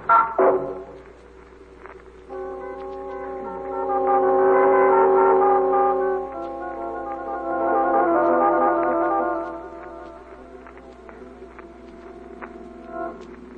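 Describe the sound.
A taxi cab engine idling with a low, steady humming drone. Its harmonic tone swells louder twice before settling back to a quieter idle.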